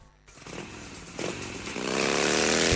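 A car engine revs during driving as the vehicle speeds up to overtake, a buzzing drone that grows louder and climbs in pitch toward the end.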